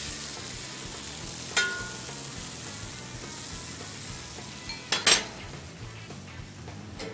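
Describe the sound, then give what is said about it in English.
Food being stir-fried with salt and ground pepper sizzles in a steady, hissing wash, broken by a few sharp metallic clinks of a utensil against the pan. “Stir, that's why they call it stir fry.”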